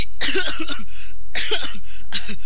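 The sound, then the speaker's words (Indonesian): A soldier standing in formation coughs, giving three loud bouts of harsh, rasping coughs separated by short pauses. “Hei, kenapa ini? Baris kau pakai batuk-batuk segala.”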